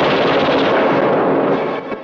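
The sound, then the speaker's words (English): Heavy machine-gun fire in a war-film battle scene forms a dense, loud, unbroken crackling roar that eases slightly near the end. “A German throws a mortar inside. After it explodes, soldiers pile in, machine guns blazing.”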